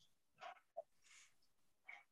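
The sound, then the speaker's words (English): A dog barks nearby in a few faint, short bursts with gaps between them, quiet and separate from any talk. “sorry, there's a dog barking over there. I don't know what's happening.”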